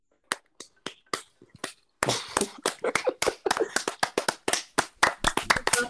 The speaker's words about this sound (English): That's why I was clapping.